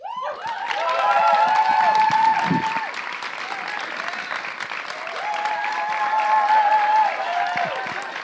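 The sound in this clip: An audience gives a warm round of applause to welcome a speaker coming up. The clapping is steady and dense, swells twice and is mixed with a few voices.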